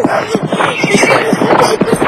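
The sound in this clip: A black stallion neighs in a loud, shaky whinny made of quick pulsing bursts that carry on for about two seconds.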